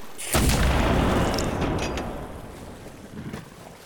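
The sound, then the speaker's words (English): A single cannon shot is fired from a sailing ship across another vessel's bow. One sharp, heavy boom gives way to a long rumbling decay, with rushing wind-like noise continuing underneath. “Run a shot across the bow.”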